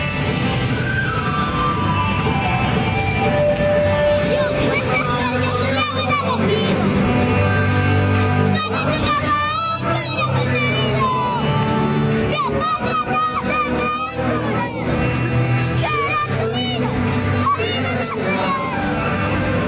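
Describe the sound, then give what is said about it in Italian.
A young girl loudly singing and shouting a football club anthem off-key in a stadium, her voice rising and wavering over a dense, constant roar of supporters throughout. “Ecco la bimba che canta l'inno del Torino.”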